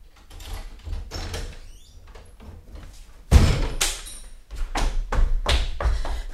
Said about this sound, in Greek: Εντάξει, άνοιξε το κελί, Χάρη.